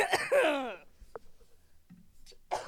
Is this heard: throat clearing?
yes